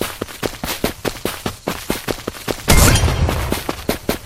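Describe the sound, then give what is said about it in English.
Shotgun gunfire in a video game, many sharp cracking shots in a fast, even rhythm, interrupted midway by one louder, longer blast before the shots resume. “Shotgun. 1 out of 3 loaded. 18 ammo left.”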